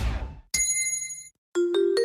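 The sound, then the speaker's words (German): A gong signals a drink break. After a short burst of noise, a bright struck tone rings out and fades. After a brief gap, a lower ringing tone sounds with a couple of further strikes. “Trinkpause. Der Gong.”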